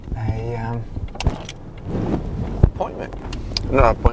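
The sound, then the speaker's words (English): A car drives up a mountain road with a low, steady rumble throughout and indistinct voices at times. “And normally I'm driving down the mountain. This time I'm driving up the mountain”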